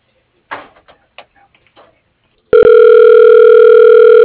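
A steady telephone line tone sounds during a call transfer to voicemail, loud and sustained to the end, following a stretch of a few soft, short muffled sounds.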